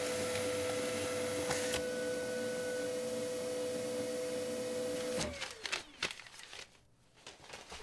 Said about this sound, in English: Let me make a copy of that for you real quick. Can you help me stand the Xerox machine back up?